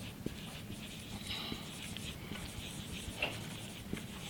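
A marker draws a green line across a board with a steady, scratchy rubbing of strokes that runs faintly and continuously for several seconds.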